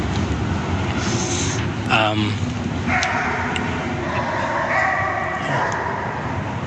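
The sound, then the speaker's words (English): An unhappy-sounding dog barking beneath a highway: a few loud barks rise out of a constant roar of traffic noise, most clearly around the middle of the stretch. “No, that is a dog. Wow. That dog doesn't sound too happy.”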